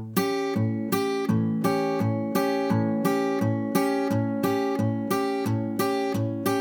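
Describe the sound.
Guitar picking: the thumb strikes the A string while the fingers brush upward across the high strings, repeating as a steady, even pattern of loud, ringing chord strokes that sound alone.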